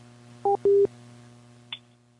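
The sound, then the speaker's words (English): Telephone line tones after a caller hangs up: a short two-pitched beep, then a slightly longer steady tone, followed a second later by a brief higher blip, all over a low constant hum. “Someone hung up. The caller hung up.”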